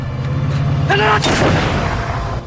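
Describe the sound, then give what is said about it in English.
A single gunshot fired at close range: one sharp, loud crack that decays into a brief rumbling tail, preceded by a short voice and set against a steady low hum. “Manolete holds his hand up as Slack shoots him”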